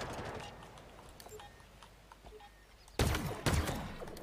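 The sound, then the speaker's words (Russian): Gunfire in the video game Halo Infinite: two sharp bursts close together near the end, rising out of a faint, muffled background. “Не стреляйте по мне, блин, задрали. А, вон кто там. Я думаю, кто там по мне стреляет?”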